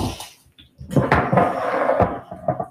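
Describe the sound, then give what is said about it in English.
Kitchen clatter as a cutting board is taken out while cooking burgers: a few hard knocks followed by a longer rattling scrape against cupboard and dishes. “So get out my cutting board.”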